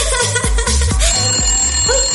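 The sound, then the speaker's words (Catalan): An incoming call sets a telephone ringing in rapid, repeated electronic trills with a steady pulsing rhythm, loud and with no voices. “Ui, tenim una trucada.”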